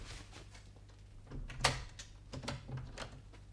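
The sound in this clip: A door is opened with a quiet sharp click, followed by a few softer knocks and rattles at low volume.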